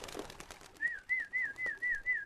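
Racing pigeons give a rapid, evenly spaced run of short, high whistling notes after a brief burst of noise at the start.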